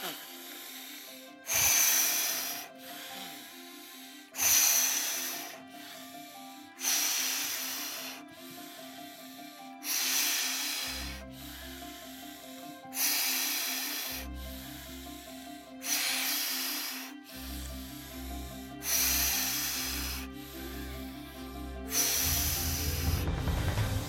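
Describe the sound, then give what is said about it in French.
Deep breaths in and out, taken quickly for about thirty seconds, come as a steady series of loud, airy rushes every few seconds over soft background music. “Donc, inspire à fond et expire à fond. Et on fait ça rapidement pendant une trentaine de secondes.”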